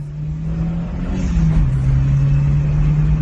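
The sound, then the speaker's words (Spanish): Engine of a 1972 Renault 5, a small rounded three-door car, running as a steady low drone with a continuous hum that dips slightly in pitch midway and holds an even loudness throughout. “Este sonido de motor se convirtió también en todo un clásico”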